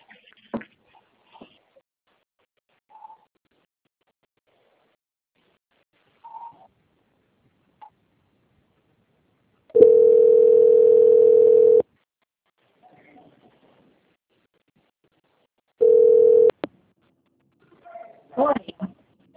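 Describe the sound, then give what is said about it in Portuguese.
Steady mid-pitched telephone tones sound during a call transfer to a bank's quality-control line. A long tone of about two seconds is followed later by a shorter one, with near-silence and faint scattered sounds between them and brief voice sounds at the end. “eu vou transferir o contato para o controle de qualidade que dará continuidade à contratação, tá bom? Só um instante.”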